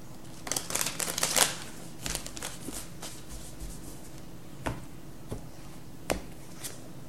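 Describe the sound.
Tarot cards being shuffled before one more is drawn: a quick burst of dense papery riffling, then a few sharp, isolated card snaps spaced apart over a faint background.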